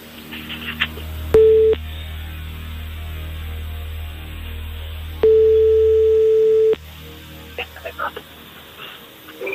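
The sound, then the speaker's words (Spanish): Telephone tones as a call is dialed: a short steady single-pitch beep, then a longer one of the same pitch, each marked by sharp clicks, with faint scattered noise between. “Estamos marcando.”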